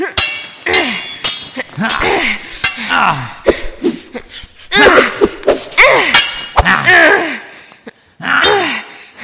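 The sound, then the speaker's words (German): Swords clash in a fight, many sharp metallic clanks in an uneven rhythm, heard under strained vocal grunts and exertion sounds. “Minutenlang schlugen die Schwerter aufeinander ein”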